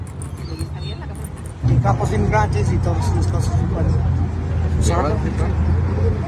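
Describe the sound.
A car arriving to pick up the speakers: a low, steady engine rumble swells in partway through, and people talk over it.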